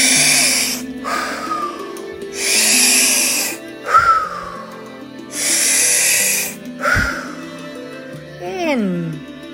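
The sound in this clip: Slow breathing in through the nose and out during a breathing exercise: a few long, airy breaths rise and fade in turn over soft sustained tones, with a voice briefly heard between breaths.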